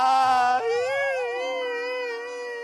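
A character cries in an audio drama: a high, sustained wailing sob with a wavering, quavering pitch that carries on unbroken throughout.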